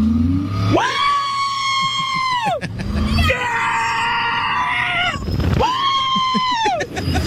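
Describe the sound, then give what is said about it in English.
Riders scream on an outdoor roller coaster, with three long, sustained group screams, each holding high and then trailing off, over a steady low rumble of the ride. “I pulled up a video of people riding the coaster to see really how it sounds.”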